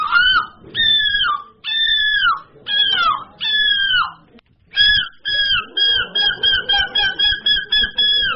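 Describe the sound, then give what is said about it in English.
Seagull calls imitated by human voices in a competition: a few long, loud wailing cries with falling pitch, then a rapid run of many short, yelping calls. “So there was a competition of people imitating seagulls.”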